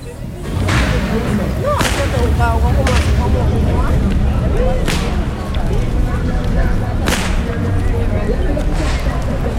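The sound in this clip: Whip cracking at a carnival: several sharp, loud cracks spaced irregularly over a steady background of crowd noise and voices.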